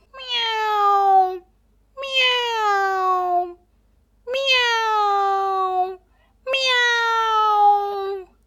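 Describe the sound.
A crying, motherless kitten meows four times in long, plaintive calls, each falling in pitch, evenly spaced with short silences between.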